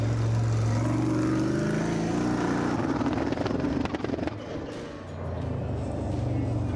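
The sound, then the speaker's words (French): Car engine accelerating along a race track straight: a loud, continuous drone with steady low harmonics that eases off briefly near the end, then builds again. “Dans la prochaine ligne droite, je veux que tu me fasses une accélération avec ta pédale de droite.”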